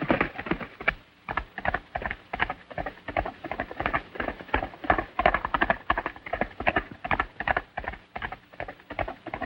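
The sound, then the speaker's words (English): Horses gallop as two riders chase each other out of a ravine. Hoofbeats drum in a fast, even rhythm that holds steady and moderately loud through the whole clip. “Meanwhile, Zanty gallops out of the ravine. John follows, hot on his heels.”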